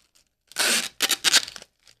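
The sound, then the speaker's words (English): Tape rips loudly off a tape dispenser while a box is being taped up: a long rasping pull, then a gap and a second crackling tear. “Is there anybody who doesn't fight with their tape dispenser?”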